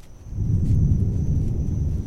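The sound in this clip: Thunder from a passing storm, a deep, loud rolling rumble that swells and holds steadily for a couple of seconds without a sharp crack.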